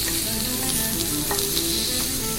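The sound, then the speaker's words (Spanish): A fried egg with ham sizzles in a pan with a steady, dense crackle and scattered small pops. The sound stays level and unbroken throughout, with no voices. “Así crepita el huevito con jamón. Estrellado.”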